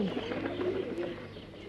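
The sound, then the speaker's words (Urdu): Pigeons cooing as the flock flies off together carrying a net, a low, continuous warbling coo over a steady hum, with no talk. “کبوتروں نے ایسا ہی کیا، سب مل کر اس جال کو لے کر اڑ چلے۔”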